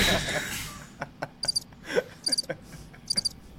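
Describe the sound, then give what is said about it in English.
Crickets chirp in a sound effect: three groups of high, thin, rapid chirps repeat at fairly even intervals over a soft, noisy background. “Fucking crickets.”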